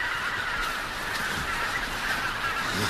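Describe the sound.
Geese honking in a dense, continuous chorus of overlapping calls, fairly loud and unbroken throughout, over a steady rushing background.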